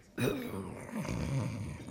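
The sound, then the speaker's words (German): Snoring of a vicar dozing on a corner bench after a soup meal: two drawn-out, rasping snores, fairly loud and heard alone. “Wer schnarcht denn da so unfassbar? Es ist der liebe Herr Vikar. Der ruht sich nach dem Suppenschmaus gemütlich auf der Eckbank aus.”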